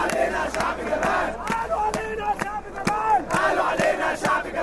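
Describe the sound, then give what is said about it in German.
Many voices shout and chant as a crowd of barricade fighters cries for freedom on Tahrir Square during the Egyptian uprising. The loud, raised shouts overlap continuously, with sharp bursts cutting through the din. “Freiheit, Freiheit, ruft ein Barrikadenkämpfer.”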